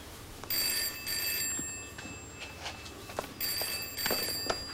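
A telephone bell rings in repeated bursts of bright, high metallic trilling over low background noise, with quieter gaps between rings.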